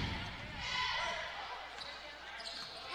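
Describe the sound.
A basketball is dribbled during a game, repeated thudding bounces under a continuous wash of crowd noise with voices in the background.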